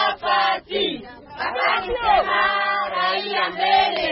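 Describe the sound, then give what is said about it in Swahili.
A large crowd of residents in Mukwija welcomes President Felix Tshisekedi with loud, overlapping shouts and chant-like calls, voices rising and holding in sustained tones. “Umati mkubwa wa wakazi walimpokea Rais Felix Tshisekedi hapa Mukwija”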